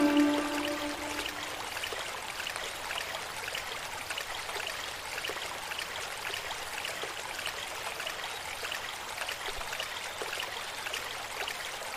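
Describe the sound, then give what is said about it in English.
Water pouring into a pot in a video game, heard as a steady, continuous hiss of running water that stays even and unbroken from start to finish. “Press the number 2 to select the right hand with the pot inside it. And press space. Now I'm filling water.”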